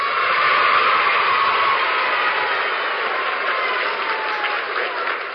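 Studio audience applause welcoming a radio show: a steady, dense wash of clapping, slightly muffled and thin in tone, continuing alone without letup.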